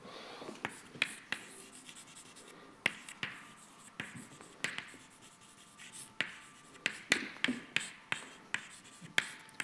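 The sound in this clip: Writing during a physics lecture on energy flux between scales: many quick, scratchy strokes and sharp taps in an irregular rhythm, fairly faint, with no clear talk over them.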